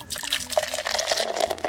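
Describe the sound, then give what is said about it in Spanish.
Coffee being poured: a short, steady liquid trickle with small gurgling splashes that keeps a fairly even level throughout. “No, mejor ya destápalo y échale tu café.”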